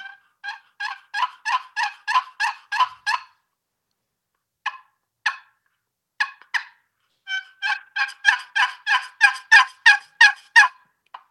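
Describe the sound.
A turkey box call is played for hunting, giving loud, raspy yelping notes. A long, even run of yelps comes first, then a few scattered notes after a pause, then another long run, with no talk.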